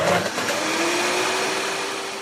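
A blender whirs as it mixes a banana almond milk smoothie, a continuous buzzing motor whine that holds steady throughout.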